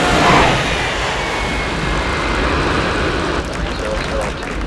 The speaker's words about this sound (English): A stormy night. A jet descends through driving rain and touches a runway.